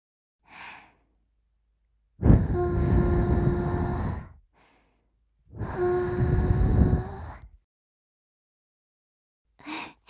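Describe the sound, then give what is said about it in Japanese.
Gentle ASMR blowing into a listener's ear: two long, soft, breathy blows of about two seconds each, with short faint breaths before, between and after them. “それじゃあ最後に耳をふーっとしますね。いきますよ。”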